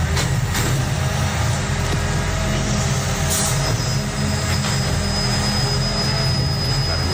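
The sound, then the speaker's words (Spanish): A collection truck empties a cardboard recycling container in the city at night, a steady loud mechanical roar of engine and machinery with a couple of brief knocks and a thin high whine that joins partway through. “Te diría que es de cartón, precisamente. O sea, es recogida de contenedor de cartón,”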